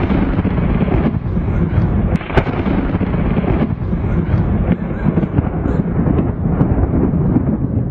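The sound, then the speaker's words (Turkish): Rolling thunder during a heavy rainstorm with lightning over Alanya, Antalya: a loud, sustained low rumble that roars continuously throughout, heavy in the bass and never falling silent. “Antalya'nın Alanya ilçesinde sağanak yağışla birlikte şimşekler çaktı.”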